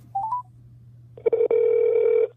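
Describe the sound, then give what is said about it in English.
Telephone dialing: a few short stepped tones, then a long steady tone with a brief break, all over a low constant hum. “I made a phone call today that I was very shocked by, and I figured if anybody would understand that this is a shocking phone call,”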